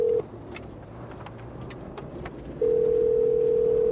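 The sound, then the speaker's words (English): Ringback tone from an outgoing telephone call ringing out: the last moment of one steady, low, humming tone, a pause of about two seconds, then the next tone holding until the end. “Let's call Nick and hope he picks up.”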